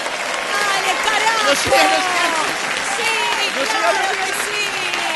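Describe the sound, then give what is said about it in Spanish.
Applause from a crowd as a sound effect: dense, steady clapping for several seconds, with cheering voices and whistle-like shouts rising over it. “Poneme más audio de aplauso.”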